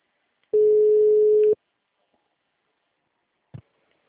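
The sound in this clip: A single steady telephone tone about one second long sounds while a call is being placed, followed by silence and then a short, soft click.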